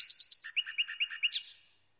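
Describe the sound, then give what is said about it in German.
Birdsong: a quick cluster of high chirps, then a run of about six evenly spaced whistled notes, closing on a stronger, brighter note that fades out. No voices. “Vogelgesang macht glücklich.”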